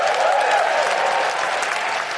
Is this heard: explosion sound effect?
no

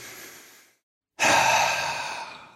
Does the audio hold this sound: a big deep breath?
yes

